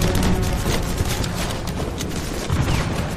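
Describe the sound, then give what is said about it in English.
Dense gunfire from a World War II fight at a bridge causeway, where a soldier steps out from cover and is shot. A continuous loud fusillade of overlapping shots and crackles runs without pause through the whole stretch. “an American private steps out from cover and is shot.”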